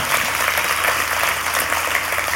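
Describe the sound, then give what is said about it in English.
Dense, loud applause from an audience honoring volunteers at an appreciation event. The clapping is continuous and even throughout, with no voices over it. “Let's give them a bigger round of applause for that.”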